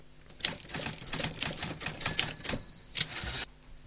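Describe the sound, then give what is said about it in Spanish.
Typewriter keys clacking in a quick, uneven burst of many sharp strikes, stopping abruptly. “Pero pues como dice, es una máquina de escribir.”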